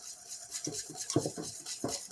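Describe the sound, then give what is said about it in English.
Whisking and scraping with a whisk and spatula through a thickening mixture in a pot on the heat. Several soft, scratchy strokes come in uneven bursts, faint throughout, with no talk. “So with the spatula, I scrape the bottom. I keep my bottom clean. And with the whisk, I whisk.”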